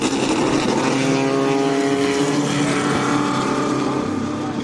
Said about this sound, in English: Ah, there it goes, a P1800.